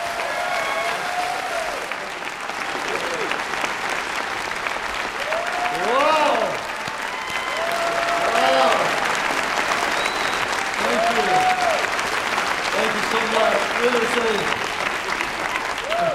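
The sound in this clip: Applause from an audience welcoming a guest speaker to the stage at a New Hope gathering: a steady, dense wash of clapping that holds loud throughout, with voices and cheers rising above it.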